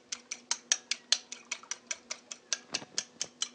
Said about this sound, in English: Break the eggs. Break the eggs.